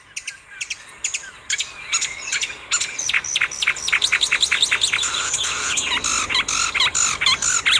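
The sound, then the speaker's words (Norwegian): A marsh warbler sings a rapid, varied song that mixes in imitations of other bird species: quick high chirps, buzzy notes and trills. It starts with sparse calls and builds into a dense, fast stream of loud notes. “Dette en som heter myrsanger, og den har noen sånne, det kommer inn liksom linnæle og lovesvale og kjøttmeis, sånne arter som ofte går igjen hos den,”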